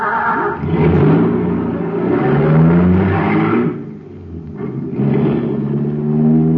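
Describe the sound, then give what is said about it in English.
A supercharged motor running on super fuel revs in loud, sustained surges, its deep rumbling drone rising and falling in pitch across several pulls with a brief dip in the middle, heard alone. “Wow, there's a motor that's supercharged. Got super fuel in it, that's why.”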